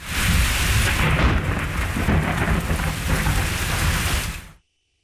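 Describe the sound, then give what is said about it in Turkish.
A heavy thunderstorm at night over a capital city: dense, loud rain pours steadily under deep rolling thunder, then the sound cuts off abruptly near the end. “Gök gürültülü sağanak yağış başkentte geceyi de gündüze çevirdi.”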